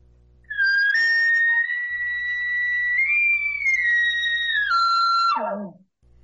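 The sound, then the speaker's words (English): A hunter blows a location bugle on a latex mouth call. It is a loud, high, sustained whistling note that steps up in pitch midway, then breaks and slides steeply downward at the end over a faint low hum. “Absolutely. Location bugle sounds like this.”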